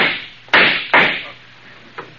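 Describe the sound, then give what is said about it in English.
Gunshots fired from an alley, a radio drama sound effect: two sharp, loud cracks in quick succession, each with a short decaying tail, then a fainter third shot. “When you shot it, I dropped. Yeah, those shots came from that alley.”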